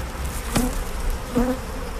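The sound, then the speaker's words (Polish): Honeybees buzz at an opened beehive, a steady, dense drone with two brief louder passes as single bees fly close by. “No pszczoła będzie zdezorientowana przez moment, szczególnie jak nie czuję, że tutaj jest zapach matki jest, bo jeszcze nie zdążyłem przyłożyć żadnej ranki. Dobra, troszkę dymu.”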